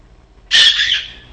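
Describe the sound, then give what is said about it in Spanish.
A parakeet gives a single loud, harsh, high-pitched screech that lasts under a second and then trails off, with no other sounds around it. “Mire, un periquito nos llamó.”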